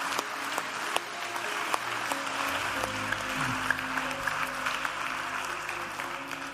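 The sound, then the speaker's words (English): A church audience applauds, with dense, steady clapping that carries on at an even level from start to finish. “Bridge family, can we put our hands together and welcome people into God's family today?”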